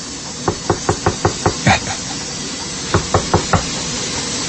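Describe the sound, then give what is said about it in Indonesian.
Knocking on the door of a work room: a quick, even run of about seven knocks, a pause, then four more raps at the same brisk pace, sharp and fairly loud over a faint background hiss. “ada yang mengetuk pintu ruangan kerjaku.”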